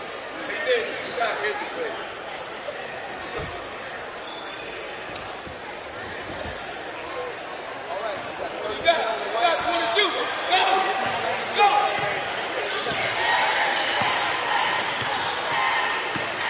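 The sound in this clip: Basketball dribbled on a court during a game, its bounces faint and intermittent beneath steady crowd noise and a voice talking over the play.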